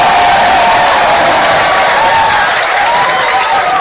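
Audience applause fills the space, a loud, steady wash of clapping with some cheering mixed in, sustained for several seconds without a break.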